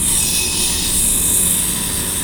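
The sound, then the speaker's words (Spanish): Road construction machines renovating the asphalt of a street give a continuous, loud roaring drone with a steady hiss on top, blended with wind and unbroken throughout. “Y es que estos días, por encima del viento, aquí suenan las máquinas.”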